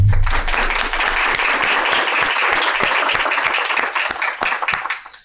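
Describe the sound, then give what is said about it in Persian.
Audience applause welcoming a guest, a writer, to the stage at a talk event: dense, loud clapping that thins into distinct separate claps and fades out toward the end. “با دست های شما به جایگاه دعوت کنم”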